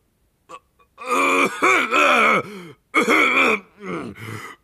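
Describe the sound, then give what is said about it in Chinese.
Gruff throat clearing imitated by a voice: several rough, rumbling voiced bursts with a groaning, moan-like quality, rising and falling in strength, heard alone without other talk. “海格顿住了，粗声粗气地清清嗓子，眼睛看着哈利”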